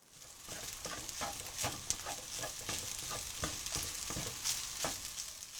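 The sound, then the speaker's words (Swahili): Ingredients stir-fried together in a pan give off a steady, crackling sizzle that runs throughout, broken by many soft scraping and stirring strokes, with no voices. “Kaanga kila kitu pamoja kwa muda mrefu kidogo na uongeze viambato vingine vilivyosalia.”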